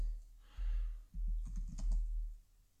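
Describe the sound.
Soft clicking of keys on a computer keyboard as someone types an online search: a short, quiet flurry of taps over a low background hum.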